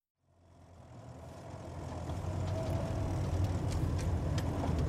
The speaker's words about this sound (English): We're driving through farmland outside Lemoore, California.